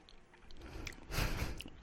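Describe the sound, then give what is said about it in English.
Quiet, wet mouth sounds as someone eats a spoonful of pure sesame oil during a condiment taste test: a brief soft slurp and smack, alone and without talking. “it's weird because I just ate a spoonful of oil, but mmm, I just coated my mouth and my nose in that nuttiness”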